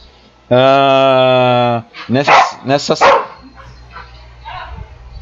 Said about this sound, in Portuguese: O cachorro tá insano aqui.